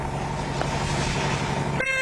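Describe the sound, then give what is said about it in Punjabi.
A bus horn honking as one bus closes in on another, a steady sustained blare over a low engine and road rumble. “ਹਾਰਨ ਗੂੰਜ ਰਿਹਾ ਸੀ।”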